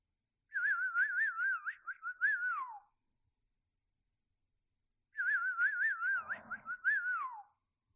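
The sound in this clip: A person whistles by mouth, playing two clear, warbling phrases of a few seconds each with a pause between them. Each phrase trills rapidly and ends with a falling glide.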